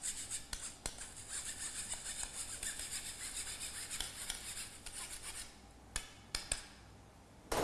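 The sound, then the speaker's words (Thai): Flour is scraped and rubbed down to make it smooth and fine, giving a quiet, steady rasping that runs on and on. Near the end it breaks into a few sharper scrapes and taps. “เราก็จะเอานะครับหาอะไรมานะครับขูดมันลงไปนะครับให้แป้งเป็นเนื้อเดียวกันนะครับละเอียดนะครับ”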